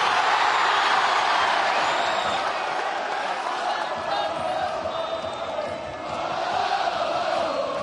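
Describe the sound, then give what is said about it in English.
Thousands of Celtic football fans cheer at a stadium, gathered to welcome an arrival: a dense, steady roar of shouting and whooping that holds throughout with only slight dips in loudness. “What words have you got for the thousands of Celtic fans that have gathered here to welcome you?”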